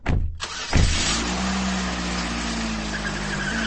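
A car engine cranks with a couple of quick bursts, catches, and settles into a loud, steady, low rumble that runs to the end.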